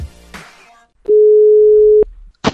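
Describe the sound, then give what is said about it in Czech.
A telephone dialing tone sounds as one steady, loud, mid-pitched beep lasting about a second, standing alone between brief softer noises. “No nic, a já volám, co? Bude to celkem velká oběť, viď? Vůbec tam jet. Vytáčím.”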